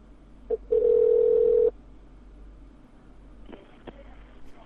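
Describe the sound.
A telephone line tone sounds while a call is placed to a debt collection agency. A brief beep is followed by a steady single-pitch tone lasting about a second. After a quiet stretch, a few faint clicks come over the line.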